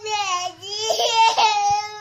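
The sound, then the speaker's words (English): A two-year-old toddler cries loudly in an iPad temper tantrum, with a sustained, strained wail that wavers in pitch and breaks into sobbing bursts. “Her dad, Daniel Brooks, posted her iPad temper tantrum on YouTube”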